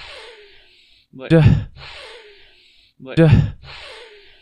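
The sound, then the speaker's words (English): Two forceful sniffing inhales from a voice imitating a football player's sack celebration, each a short loud burst of breathy noise with a rough voiced edge, separated by a gap and set against steady background hiss. “maybe didn't have to inhale that hard, but like that's just what I imagine.”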